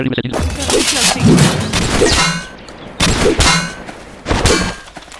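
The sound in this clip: Rifle fire in a video game comes in a few loud, clattering bursts separated by short gaps, while a voice talks over the action.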